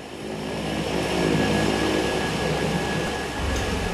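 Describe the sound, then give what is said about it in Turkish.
An aircraft engine powering up for a takeoff from runway 19: a loud, steady drone with sustained tones that swells over the first second, holds, then shifts slightly lower near the end. “Normal bir kalkış olacak. Sadece biraz daha yumuşak hızlayacağız.”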